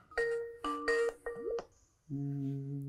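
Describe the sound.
Skype video-call ringtone: a few bright electronic chimes in a short melodic pattern, one gliding upward, then a pause and a sustained lower tone.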